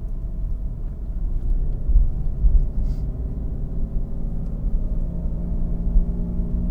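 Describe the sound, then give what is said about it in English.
A car drives through a road construction zone, with a steady low engine and road rumble that stays continuous and even, without distinct separate events. “And sorry, just driving through a construction zone there. Had to concentrate for a minute.”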